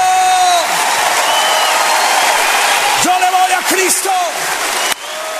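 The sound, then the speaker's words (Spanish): A standing church audience applauding during a Spanish-language service, a broad bed of clapping and crowd noise under a loud, shouting male voice. “Póngase de pie, aplauda a Cristo, aplauda a Cristo, aplauda a Cristo.”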